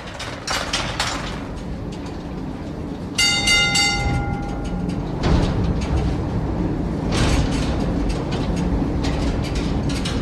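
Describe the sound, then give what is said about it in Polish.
Clanking of a coal mine shaft cage as its gates shut, then a quick series of signal bell pings ringing out over a steady mechanical rumble as the cage starts down the shaft. “te larmo jak się wrota otwierają, potem jak ładują, furtki są zawierane i potem jest te słynne ping, ping, ping, czyli 3 razy i szola jedzie na dół.”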